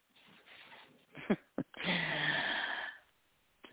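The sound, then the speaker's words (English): A deep breath: a long, breathy rush of air lasting about a second, preceded by a couple of short sniff-like bursts and fading into quiet. “Take a deep enough breath there.”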